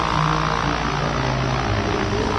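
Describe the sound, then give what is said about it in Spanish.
A Bristol airplane engine drones on a high-altitude flight over the Andes, a loud, continuous roar with a steady low hum and no break. “¿Soportará el Bristol esta altitud? Por el momento debo fijarme en la bomba de aceite y en las revoluciones del motor.”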